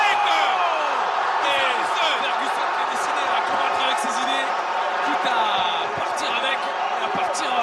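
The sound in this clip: A crowd cheers at a fight with a continuous, loud roar and scattered shouts, while a commentator talks over it throughout.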